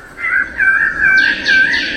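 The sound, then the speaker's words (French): Birds of paradise sing through a museum exhibition devoted to these New Guinea birds. Their sustained, clear whistling calls are fairly loud, and higher overlapping notes join in during the second half. “Le chant des oiseaux de paradis accompagne les visiteurs tout au long de la visite.”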